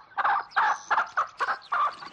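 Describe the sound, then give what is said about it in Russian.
A red rooster runs across a farmyard, making six short, clucking calls in an uneven rhythm, each a bright burst standing alone against a quiet background. “По двору бежит рыжий петух.”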